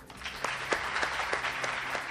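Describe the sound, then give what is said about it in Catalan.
A standing audience in the Aula Magna of a university's Faculty of Economics and Business gives a steady, fairly soft round of applause, a dense patter of many hands clapping without pause. “La sala de l'Aula Magna de la Facultat d'Economia i Empresa d'Empeus ha ovacionat Vidal, que ha marxat cap al seu despatx a esperar la decisió del màxim òrgan de la magistratura.”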